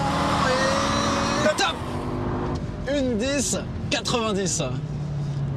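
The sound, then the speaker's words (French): A Honda Civic's engine drones loudly as it is driven around a race track during a timed lap. The engine note shifts in pitch as the revs change, and a man talks over it. “Bon, on va voir ce que fait la Civic.”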